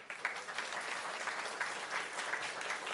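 Applause from a church audience welcoming a scripture reader, a soft, even patter of many hands clapping throughout.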